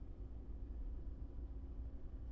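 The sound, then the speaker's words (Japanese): A car drives, heard from inside the cabin as a steady low rumble with a faint constant hum above it. There is no talk. “車動いてると話に集中できないから家の近くの空いてる駐車場に停めてほしい。”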